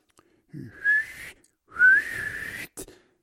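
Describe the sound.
Whistling with pursed lips beside a sleeping father's bed: two clear, fairly high whistles, the second longer, each rising slightly in pitch, with soft breathy noise around them.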